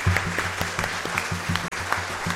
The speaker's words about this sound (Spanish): Sí, un aplauso a la Virgen.